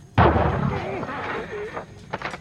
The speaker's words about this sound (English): I think they just shot your boss.